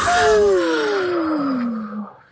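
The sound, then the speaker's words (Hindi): A long, deep breath taken slowly in and out, voiced like a drawn-out sigh that slides steadily downward in pitch over about two seconds, fairly loud and alone. “चलो फिर थकान दूर करने के लिए हमारे साथ लो एक लंबी गहरी सांस। लंबी सांस अंदर, लंबी सांस बाहर”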